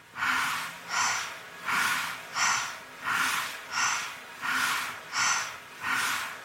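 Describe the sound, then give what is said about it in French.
Deep belly breaths taken while seated, fairly quick but relaxed, come in an even rhythm of nine breathy whooshes, each rising and fading at the same pace. “Maintenant, je m'assois et je prends 10 respirations profondes dans le ventre de manière assez rapide mais décontractée.”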